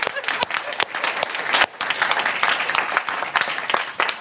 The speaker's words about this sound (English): Isn't that amazing? Let's hear it for Cherie.